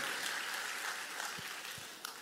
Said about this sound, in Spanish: Quiero escuchar un aplauso en la casa.